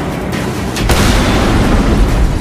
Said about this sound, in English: police swarm the area and Commissioner Loeb orders a bomb to be dropped on the building.